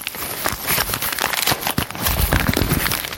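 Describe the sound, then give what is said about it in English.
Tearing open a padded USPS mailer bag lined with air pockets: dense, continuous crinkling and crackling rustle with many sharp snaps of plastic throughout. “maybe not even scissors. It looks like I can just tear open that.”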